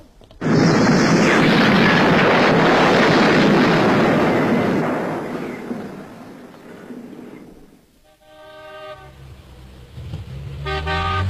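Bomb explosion at a hotel near a fountain, a radio drama effect: a sudden loud, broad roaring blast that sustains and slowly fades over several seconds, followed by horn-like honking tones.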